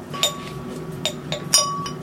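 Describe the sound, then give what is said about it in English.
A small glass vial clinks in a chemistry lab during a sulfa drug synthesis under an enclosed exhaust hood, giving a few faint, sharp, bright clinks over a steady low hum. “is synthesizing a sulfa drug in a mini glass vial. Working under an enclosed exhaust hood, he's just added a tiny amount of chlorosulfonic acid to the vessel.”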